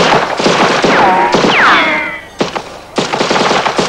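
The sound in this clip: Gunfire with bullets flying as people run through a town street under fire: rapid bursts of shots, a few high descending whistles of passing bullets, then some sharp separate cracks.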